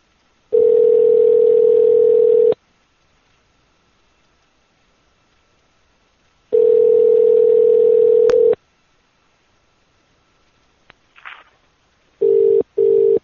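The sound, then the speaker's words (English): A telephone dial tone sounds while a call is being placed. It is a steady, loud, low tone in long bursts with silent gaps between them, a brief click and faint noise in one gap, and two short bursts at the end. “We'll have to call J-Kid instead.”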